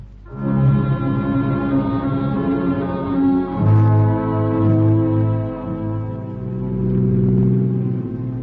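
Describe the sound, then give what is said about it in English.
Taxi cab driving through city streets: a loud, steady engine drone with layered humming tones that shifts in pitch a few times and carries on without a break. No voices. “I grab a cab and head for the area we'd marked out on the map. I cruise up one street and down the other, and time is slipping away.”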